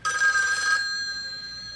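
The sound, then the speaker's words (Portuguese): A telephone bell rings in a bright, metallic trill that stops abruptly and leaves a fading tone. “Ouço o telefone tocando em sua vida.”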